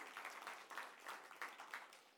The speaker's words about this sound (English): how about a clap of applause to the Lord for how He's at work?